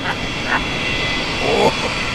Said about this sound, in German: ich habe mir hier aus einem alten Flugzeugtriebwerk und einem Salatsieb einen tollen Outdoor-Ventilator gebastelt.